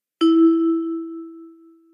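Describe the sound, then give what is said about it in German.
A hotel reception desk bell struck once, giving a single bright metallic ding that rings on and fades slowly over nearly two seconds, alone. “Ist gerade niemand am Empfang oder ist die Tür außen vom Hotel noch geschlossen, dann hilft die Klingel und hoffentlich ist gleich jemand da.”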